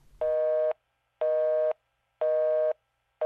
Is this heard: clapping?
no